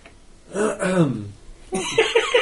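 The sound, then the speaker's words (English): A voice imitates loud, gravelly throat clearing for a skeleton character, a harsh guttural rasp that dips in pitch before a short stretch of spoken voice follows. “The skeleton loudly clears the throat.”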